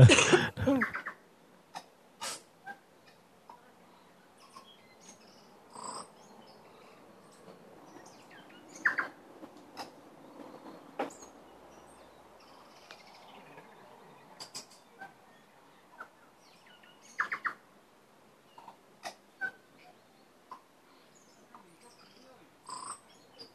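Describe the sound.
Calls of a nok tui bird recorded outdoors. Brief, faint bursts are scattered far apart, with long quiet gaps between them over a soft background.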